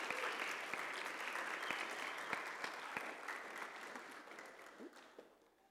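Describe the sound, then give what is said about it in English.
A church audience applauds during a morning service to welcome a new member. The clapping is dense and steady, then thins and fades toward the end. “Let's give him a hand and welcome him into the church this morning.”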